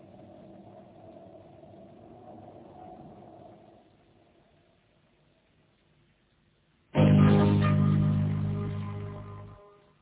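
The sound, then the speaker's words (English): A scout car's engine heard as a low, quiet rumble that dies away, then a sudden loud, rough roar that tapers off gradually before cutting out. “A scout car from the ship. And it's coming this way.”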